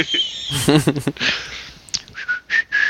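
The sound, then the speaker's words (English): The whistled Old Spice jingle plays as a short melody of bright, high, clear notes, broken early on by a brief voice-like passage. “I think that'll be the link noise for this week, that little Old Spice whistle.”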